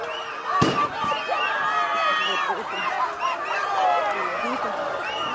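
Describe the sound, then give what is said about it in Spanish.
A single sharp bang from a shot fired at a peaceful street protest with tear gas cracks out once near the start. It is followed by a steady, faint mass of crowd voices and shouting. “tirando gases lacrimógenos, nos están disparando.”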